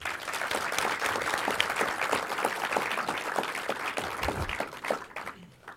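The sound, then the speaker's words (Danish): A live audience greets an invited guest with dense, continuous applause that holds steady for several seconds before thinning out at the end. “Giv hende lige en stor hånd.”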